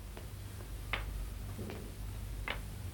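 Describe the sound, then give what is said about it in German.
Crutches of a one-legged giant tapping as he approaches, heard as a few sparse, light clicks at an uneven pace over a steady hiss. “Hörst du? Tick, tock, tick, tock. So machen die Krücken.”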